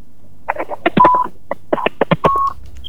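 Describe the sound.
Telephone keypad tones as a radio call-in line connects a listener's phone call: many quick, uneven dialing beeps of differing pitch, some short and some held a little longer.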